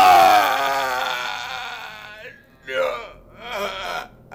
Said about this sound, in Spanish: oyó un grito desgarrador que le heló la sangre.